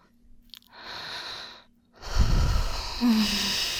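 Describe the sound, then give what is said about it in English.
A woman takes a deep breath: a soft, airy inhale, a short pause, then a louder and rougher breathy exhale that holds to the end, with no words spoken. “when I take a really deep breath like this”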